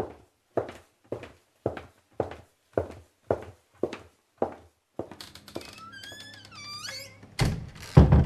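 Heavy, evenly spaced footsteps thud in a steady run, then a door opens with a long, squealing creak, ending with a couple of louder bumps.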